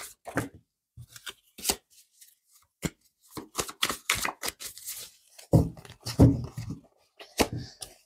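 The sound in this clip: Tarot cards being shuffled and handled: many crisp, papery slaps and riffles in irregular bursts separated by short pauses, alone with no voices.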